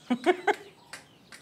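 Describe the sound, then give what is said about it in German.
Laying hens of an English free-range breed cluck as they are let out, giving three short, clear clucks in quick succession followed by a couple of fainter calls. “Komm mal her, aussteigen. Auf dass ihr groß und stark werdet und ganz viele Eier legt.”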